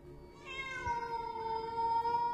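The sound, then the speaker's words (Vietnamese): A cat meows in one long, drawn-out call with a wheezy tone likened to a child with asthma crying at night. The call starts shortly after the opening and holds steady and fairly loud to the end. “Con mèo nheo nheo mắt nhìn xuống Dương, rồi bất ngờ kêu lên mấy âm thanh nghe như là tiếng trẻ con bị hen trong đêm.”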